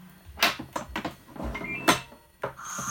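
The lid of a Philipiak Cookover S500 cooker being closed: a few quiet plastic clicks and clunks, ending with a sharper knock.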